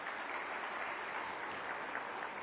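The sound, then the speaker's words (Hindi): Applause from an audience clapping at a Hindi talk, a steady, dense patter of many hands with a dull, muffled quality that holds evenly for about two and a half seconds. “तालियां बजा सकते हैं अगर बजाना चाहे तो”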